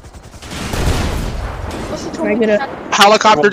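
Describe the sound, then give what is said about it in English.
A rumbling volley of gunfire in a police role-play video game, heavy at first and then fading, followed by a voice speaking over the last moments. “Shots fired in the vicinity.”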